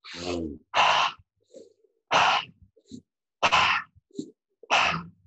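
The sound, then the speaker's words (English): Intense breath work, a forceful breathing demonstration: five loud, rushed breath bursts in an uneven rhythm, with softer breathy puffs and gasps between them. “But if you can do some more intense breath work, I'm going to show the viewers right now because I'm fired up. If you go like this,”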